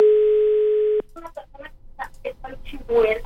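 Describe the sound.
A telephone call goes unanswered, heard as a steady electronic ring tone lasting about a second that cuts off abruptly. People then talk over the line.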